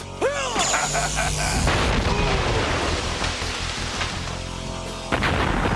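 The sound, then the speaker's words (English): A Power Rangers blade blaster fires: a few arching, laser-like zaps ring out at the start, followed by a dense, noisy crash and rumble that carries on to the end. “Like, this is one ranger with a blade blaster, and it does the job. It finishes him off.”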